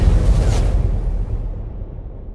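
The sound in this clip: A loud explosion sound effect, a deep rumbling boom with a brief hissing streak near the start, then a heavy low roar that slowly fades over about two seconds.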